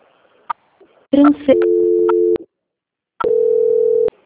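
Telephone tone after a dropped call, two long steady electronic beeps at one pitch separated by a pause, preceded by a few faint clicks.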